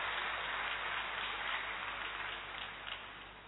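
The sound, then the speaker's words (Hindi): An audience applauds to welcome a speaker at a gathering, making a dense, steady wash of many hands clapping. It holds fairly even, then eases slightly softer toward the end. “हम सब जोरदार करतल ध्वनि से आत्म भाई का स्वागत करेंगे।”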